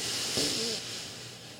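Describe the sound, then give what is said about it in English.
A deep breath in through the nose with the mouth closed, a long, soft, airy hiss that holds steady and then eases off toward the end. “I want you to take a big old deep breath with me with your mouth closed as you breathe in through your nose.”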